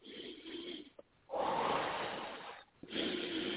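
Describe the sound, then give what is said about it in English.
A deep breath taken during a prayer session: a long, steady rush of air drawn in and let out, loud and breathy, with a quieter breath before it and another after. “Take a deep breath and let the Holy Spirit burn those spirits out. Deep breath.”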